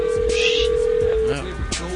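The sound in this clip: A telephone tone sounds while a caller rings someone back, a steady single pitch holding for over a second before it cuts off and people talk.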